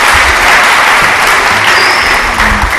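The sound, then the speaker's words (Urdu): A church audience applauds loudly during a service, producing a dense, steady burst of clapping that stays strong from start to finish. “یسوع کی طرح زوردار تالیاں ہو جائیں۔”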